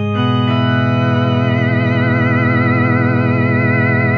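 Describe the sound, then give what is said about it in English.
Sustained organ-like chord from an EHX C9 guitar effects pedal with its vibrato switched on. The tone is loud and steady, and after a brief start its harmonics waver in a smooth, regular wobble throughout. “And let's turn on some of the vibrato.”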